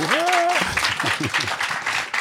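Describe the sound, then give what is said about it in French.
An audience at a comedy show breaks into applause after a brief voiced shout at the start. Steady, fairly loud clapping follows, with scattered voices underneath. “Par applaudissement, qui aime acheter des chaussures en solde dans la salle ?”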